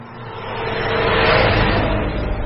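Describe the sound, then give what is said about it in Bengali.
A car drives fast along a road, making a broad, steady roar over a low rumble. The sound swells toward a peak near the middle and then eases slightly, with no voices. “রাস্তা দিয়ে গাড়িটা বেশ জোরে চলছে।”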